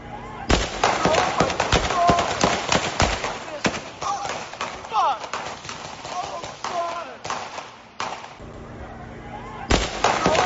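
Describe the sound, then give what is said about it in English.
Gunfire breaking out during a street shooting in Texas: several sharp bangs scattered through dense, noisy commotion, with people talking over much of it. “this is a video across the street when the shooting breaks out”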